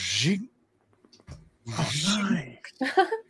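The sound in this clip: A voice imitates the breathing of an Optimus Prime toy robot that breathes when left standing still: a breathy, rasping exhale, then after a pause a longer throaty voiced breath and a short trailing burst.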